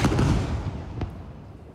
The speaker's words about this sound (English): This is the moment Israeli fighter jets struck a residential building near Al-Aqsa Hospital in Deir al-Balah in central Gaza.